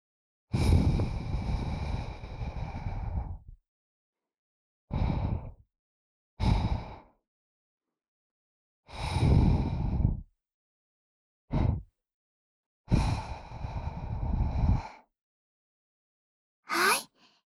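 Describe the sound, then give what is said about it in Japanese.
Gentle ASMR breaths blown into the listener's ear, seven airy puffs of varying length, some long and drawn out, others short, each separated by silence. “お耳の中をふうふうしていきます。少しくすぐったいかもしれませんが、あまり動いてはダメですよ。”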